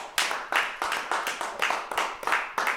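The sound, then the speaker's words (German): Applause in a German-language audio drama: many claps landing in a steady, even beat, fairly loud and with no talk over them. “Applaus.”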